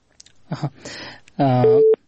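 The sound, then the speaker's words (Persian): A telephone busy tone follows a dropped call from a caller in Kunduz province: one short, steady tone sounds after a stretch of talk. “بله تماس ای دوست ما قطع شد که از ولایت کندوز تماس گرفته بودن”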